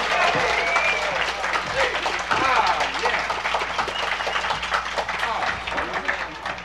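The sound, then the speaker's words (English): Audience applause welcomes a nine-year-old fiddler, a dense, even clatter of many hands clapping that holds steady throughout, with a voice talking over it. “Would you welcome Ronnie Stewart? How about a nice hand for Ronnie?”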